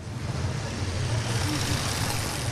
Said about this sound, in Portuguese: Avancemos com o Felisberto, que não larga o volante do Toyota cinzento.